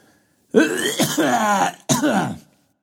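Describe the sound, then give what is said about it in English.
Throat clearing in two rasping bursts, a longer rough one followed by a shorter one, loud and alone with silence before and after. “Sorry about that. Tickled my throat.”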